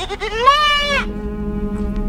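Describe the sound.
A goat bleats during an animal sacrifice in a tabernacle: one drawn-out, wavering bleat that swells to full strength, holds about a second, then cuts off into quiet.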